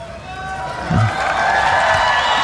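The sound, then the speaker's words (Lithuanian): Crowd at a World Youth Day Mass applauding a greeting: a continuous wash of clapping and cheering that swells slightly partway through, with a brief voice rising out of the noise. “Ir visa minė plojimais jį sutinka jo pasveikinimą.”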